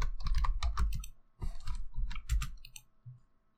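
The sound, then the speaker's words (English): Rapid keystrokes on a computer keyboard as someone types a web search, coming in three quick bursts of clicking with short gaps between them, then a long pause and a final brief tap. “Let me Google something here. I'm going to type in some words into my Google browser and probably regret it.”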